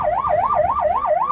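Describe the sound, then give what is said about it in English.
An ambulance siren wails loudly at a sand-barricaded, barbed-wire checkpoint while carrying an ill man from a refugee camp to a clinic, sweeping rapidly up and down in about five quick, even cycles with no other sounds. “That's the sound of an ambulance that is just carrying an ill man who has been brought from the camp back to the clinic.”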